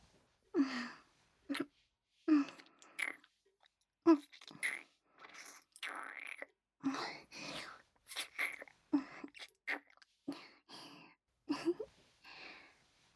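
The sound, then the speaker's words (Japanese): Wet kissing sounds come as a series of short, irregular lip smacks, each followed by soft breathy pauses. The smacks stay fairly quiet and close together. “なかなかキスがうまいじゃない。いつもあの子とこういうキスをしているの？”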